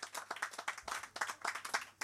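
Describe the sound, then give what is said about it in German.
Hand clapping from an audience welcoming a city mayor to a business and tech event: many separate, crisp claps in an uneven patter, fairly faint and without voices. “Hallo Ingo, mit einem dicken Applaus, herzlich willkommen.”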